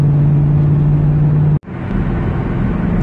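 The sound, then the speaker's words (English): A car driving on a wet road makes a loud, steady low rumble and hum inside the cabin, which cuts out for a moment midway before resuming. “driving my car and got a shift. It's a little wet out, so I gotta be careful, and it's loud.”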